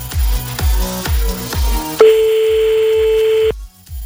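Telephone line tones during a call: four short, evenly spaced pulsed beeps give way to one long steady tone that holds and then cuts off abruptly, with no voices.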